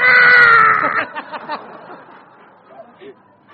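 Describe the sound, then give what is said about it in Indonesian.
A voice imitates loud wailing crying, starting with a sustained high-pitched wail for about a second, then breaking into a series of shorter sobbing gasps that fade quieter toward the end. “Ya tapi menangis meraung-raung, coba kasih tunjuk kepada. Gimana menangis meraung-raung?”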